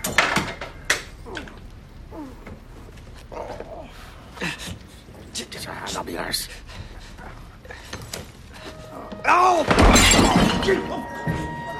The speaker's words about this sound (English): He smashes a window, gets on the ledge, and falls inside.